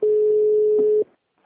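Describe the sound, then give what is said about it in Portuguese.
A phone line tone after a dropped call: one steady, mid-pitched electronic tone held for about a second, then cut off, leaving faint low noise. “caiu de novo a a ligação. ligação caiu, ligação caiu.”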